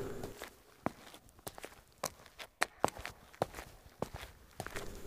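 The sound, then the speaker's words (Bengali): Footsteps of a man walking toward a house, many quiet, irregular steps heard alone with no talk. “সেদিকে হাঁটতে থাকে”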